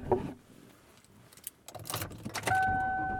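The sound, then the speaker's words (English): Inside a car while driving home, keys jangle amid clicks and rustles. A low, steady running rumble then sets in, with a sustained two-tone electronic chime that holds to the end. “And I am driving home. Let me check and make sure this is actually running. I thought I saw that it was. It is running.”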